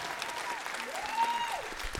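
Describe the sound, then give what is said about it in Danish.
Quiet, steady audience applause at a live show, dense clapping holding at an even level throughout. “Giv lige dem en hånd.”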